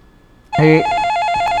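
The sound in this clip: A telephone rings for an incoming call. After a brief quiet moment a bright electronic ringtone starts abruptly and holds a steady, slightly trilling high tone to the end, with no talk.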